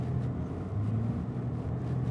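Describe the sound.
Car driving on roads in Nairobi, a continuous low engine and road rumble at steady loudness, with no voices.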